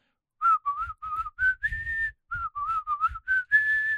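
Melodic whistling in a song, a bright, clear tune of short and held notes. A phrase plays once and then repeats, over a soft low rhythmic accompaniment.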